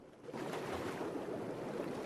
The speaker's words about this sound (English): He paddles across the water.